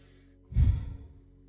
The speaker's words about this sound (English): Let's take a deep breath